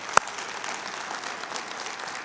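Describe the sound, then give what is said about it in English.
A church audience applauds during a sermon about God's presence. One sharp clap stands out near the start, and steady, moderate clapping continues underneath throughout. “Now, hopefully you're applauding for the power of God and what it means to be in His presence.”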